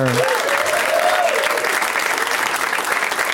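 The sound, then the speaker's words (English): Audience applause welcoming guests onto a comedy show: dense, steady clapping fills the whole stretch, with some voices cheering near the start. “So please give a big warm welcome to Joe Bagos, Jacob Siroff, Shane Moss, and Dan Telfer.”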